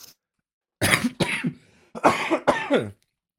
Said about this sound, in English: sorry, I think I have to sneeze. I'm trying to hold it back.